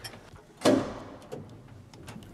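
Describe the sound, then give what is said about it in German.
An old elevator door, still in nearly original condition, is latched by hand with one sharp, loud metallic clack that rings out and decays. A few faint ticks and clicks follow. “So, Türen müssen wir von Hand verriegeln. Zack, so.”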